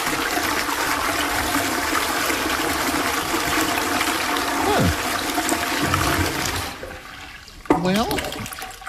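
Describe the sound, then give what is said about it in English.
A self-cleaning toilet flushes away solid and liquid waste and sanitizes its bowl. Water rushes steadily for several seconds, then stops abruptly, and a short swirling gurgle of draining water follows near the end. “It then extends a disposal arm, completely flushing both the solid and liquid waste away. Immediately after, it runs an intensive self-cleaning and sanitizing cycle on the bowl, leaving it pristine for the next trip.”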